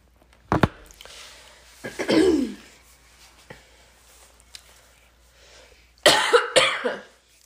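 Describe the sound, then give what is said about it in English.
A person gives a few coughs and throat clears in separate bursts with quiet gaps between them. One sharp cough comes early, then a longer rasping clear, then a loud rough pair near the end. “I just want to make sure my throat is as clear as possible.”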